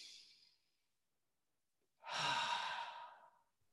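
A driver takes a single deep breath in dense highway traffic: a long, breathy rush lasting about a second and a half. It comes after a faint, short breathy sound and a quiet pause.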